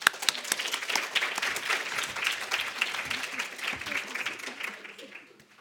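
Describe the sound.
Audience applause welcoming a speaker at a conservative women's center event: dense, sustained clapping from many hands that gradually fades toward the end.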